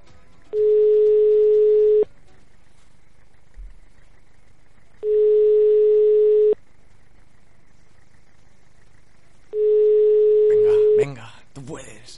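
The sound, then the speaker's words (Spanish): Telephone ringback tone on a live call: three identical long, steady beeps at even intervals separated by silent pauses, with a voice briefly coming in near the end. “Estamos marcando y a ver si tenemos suerte.”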